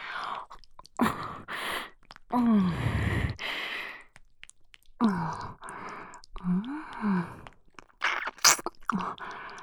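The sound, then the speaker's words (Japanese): Someone nibbles and lightly bites an ear, making close, wet mouth and chewing sounds in irregular bursts, broken by soft sighing breaths and short gaps, with no talk. “こっちの耳も美味しいよ。少し噛んじゃうね。”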